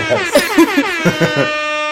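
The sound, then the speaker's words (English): A Jamaican air horn sound effect blares in rapid, stuttering bursts, a loud, buzzy, brassy tone that pulses several times and then holds as one steady note to the end. “add some Jamaican air horns.”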